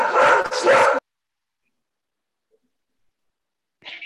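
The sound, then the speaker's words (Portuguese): Big dog barking: two loud, deep barks in quick succession, then silence, with another faint sound at the very end. “Grande cachorro, gente.”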